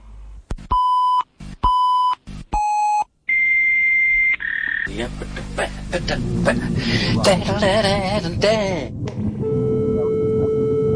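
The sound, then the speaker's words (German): A computer sounds an alert: three short pitched beeps, then a longer two-note tone, followed by a stretch of dense, busy electronic noise. “Da meldet er sich wieder. Das heißt, wenn dieses Geräusch ertönt, dann will der Computer, dass man sich mit ihm befasst. Aber jetzt mache ich den mal aus.”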